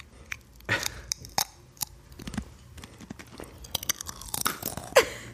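A potato chip is crunched and chewed up close in ASMR style: irregular crisp bites and munching, a few louder crunches scattered through, the sharpest near the end, with no voices.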